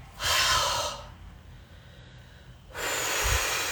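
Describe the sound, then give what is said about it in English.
Deep breaths during a relaxation breathing exercise: two broad, airy rushes of breath, each lasting about a second, separated by a quiet pause. “When you're ready, inhale. Let it all go. Exhale.”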